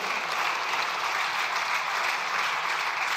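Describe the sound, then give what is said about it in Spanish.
Applause for a politician, a dense and even clatter of many hands that holds at a steady, moderate level from start to finish without pause. “A él sí que le aplaudieron.”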